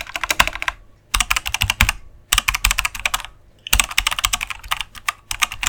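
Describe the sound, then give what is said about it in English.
Keyboard typing on a computer as someone searches online: rapid clicking keystrokes come in about four bursts separated by brief pauses, with no voices. “Oh, go for it. We'll listen while you type.”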